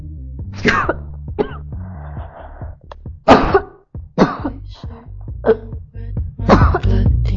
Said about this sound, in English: Sorry, I'm gonna cough now.